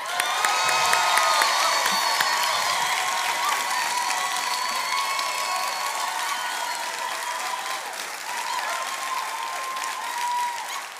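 A church audience applauds and cheers to welcome a pastor, a dense, sustained wash of clapping with scattered whoops that stays steady throughout.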